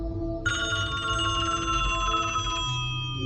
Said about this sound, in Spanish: Sonó el teléfono.